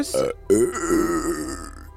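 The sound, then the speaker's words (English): A single drawn-out burp, a low, rumbling eructation lasting about a second that trails off slowly, preceded by a short spoken phrase. “That sounded like a burp. It was half a burp.”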